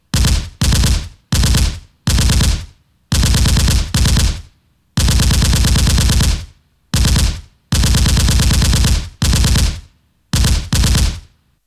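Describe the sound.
Continuous gunfire during a massacre of a trapped crowd: loud, rapid automatic bursts of shots repeat many times, separated by short gaps, some bursts brief and others running on for over a second.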